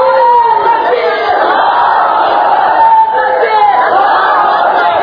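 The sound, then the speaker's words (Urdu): A large crowd chants slogans at a public address: a loud, massed roar of voices shouting in unison, rising and falling in waves and sustained without a break. “وقت کم ہے، نعروں میں وقت ضائع نہ کریں”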